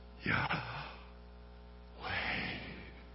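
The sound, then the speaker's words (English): Slow breathing in and out, as two soft, airy breaths about a second and a half apart, fairly faint and with no talk over them. “There are many scholars who believe that the name Yahweh is actually trying to write out what it sounds like when you and I breathe, like this.”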